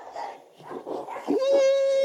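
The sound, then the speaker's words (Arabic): Dogs at a family home in San Miniato, Italy: voices come first, then a dog's long, high whine rises briefly and holds a steady, loud pitch to the end. “So many dogs, huh? So many dogs. We have. This is our family dog from my sister.”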